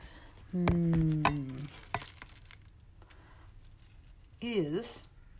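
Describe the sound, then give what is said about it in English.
Hard-boiled eggs being peeled by hand: faint, irregular crackling and scraping of brittle shell, with a few sharper cracks. “Can you hear this? Me peeling hard-boiled eggs.”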